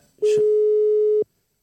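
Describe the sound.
A telephone busy tone heard while a caller redials someone during a phone call: after a brief click, one steady mid-pitched tone sounds loud for about a second and then cuts off into silence.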